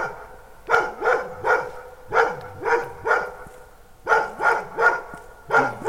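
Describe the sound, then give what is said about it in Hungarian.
Dog barking near a hill in Sirok, Hungary, with a strong echo; many sharp, loud barks come in quick bursts of two or three, separated by short pauses. “50 méterre ott a kutya, de nagyon vízhangos, ott arra hegy van?”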